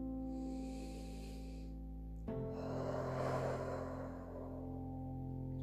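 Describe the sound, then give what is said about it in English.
A single long, deep breath drawn in during a meditation session with hands on knees before chanting Om, a soft airy rush that swells and fades over a steady droning hum. “First, take a deep breath.”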